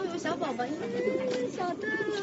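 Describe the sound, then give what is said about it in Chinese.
Soft cooing of a young pigeon, taken out by hand to be fitted with a leg ring: low, warbling notes that rise and fall in a continuous, faint murmur. “我正好有一只小鸽子，该给它戴脚环了，我拿出来，我给你戴，你 看。”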